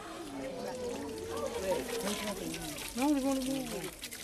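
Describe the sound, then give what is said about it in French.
Water runs from a yellow pipe for a ritual foot bath in a temple courtyard at Piton-Saint-Leu, Réunion, a steady trickling pour heard under continuous voices of people nearby. “Un petit bain de pied sous le tuyau jaune dans la cour du temple de Portail, à Piton-Saint-Leu, île de la Réunion. Les fidèles font la file indienne pour ces ablutions rituelles.”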